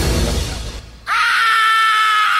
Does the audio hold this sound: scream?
yes